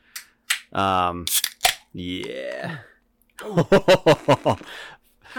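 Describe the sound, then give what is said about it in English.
A can of session IPA beer is cracked open, making a sharp, brief pop amid people talking. “I'm cracking a special one that we're going to talk about here. Yeah, that is a special one. Why don't you tell everybody what you're cracking? Yeah, the Ollie Ale Session IPA.”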